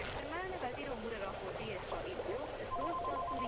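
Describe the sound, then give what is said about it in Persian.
A home telephone ringing, steady repeated electronic tones entering partway through, quiet and under a speaking voice. “طاهره به زنگ تلفن توجهی نمی کنه.”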